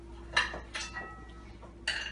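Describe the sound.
Serving utensils clink against a plate as panzanella salad, made of bread, tomato, olive oil and lemon, is plated. A few sharp clinks and scrapes are separated by brief pauses, with no talk.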